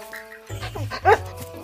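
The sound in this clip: A dog barks happily in a park, giving a few short, bright yips and barks, the loudest near the middle, with a steady tone fading out just before them.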